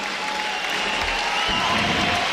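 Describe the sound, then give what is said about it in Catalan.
Applause from a futsal crowd honouring a three-time European champion player: a steady, even patter of many hands clapping that holds at a moderate level from start to finish. “Aquests aplaudiments són per el tres vegades campió d'Europa de Mopa, Kevin.”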